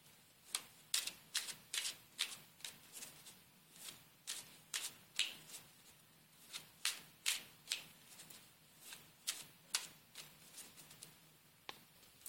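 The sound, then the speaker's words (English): Playing cards being shuffled and pulled from the deck during a pick-a-card reading, with many crisp riffling and flicking bursts in an uneven rhythm. “all right, so we're pulling a card for just a moment.”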